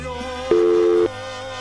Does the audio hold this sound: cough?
no